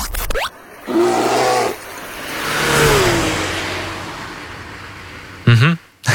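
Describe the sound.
Racing car engine at a racetrack, used as a contest cue: a loud engine roar swells and then slowly fades over several seconds, with short tonal bursts before and after.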